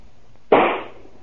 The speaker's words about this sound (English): Why are you shooting that rifle? What are you shooting at?